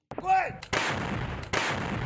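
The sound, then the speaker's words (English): Artillery fire on the front lines in eastern Ukraine, with Russian forces shelling positions: two heavy, loud booms with long rumbling tails follow in succession, standing alone without talk. “On the front lines in Ukraine's east, Russia prepares another artillery onslaught. Russian forces continue to make slow progress, firing at outgunned Ukrainian positions.”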